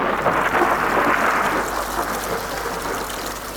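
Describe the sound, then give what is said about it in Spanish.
Heavy rain begins falling as animals board an ark, a loud, continuous hiss of pouring water with a low, rumbling undertone like thunder. “Y fue entonces cuando comenzó a llover.”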